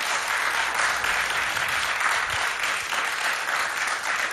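A large studio audience applauds at an evening club event in a Polish radio studio, a thick, continuous wash of clapping at a steady level, with no talking.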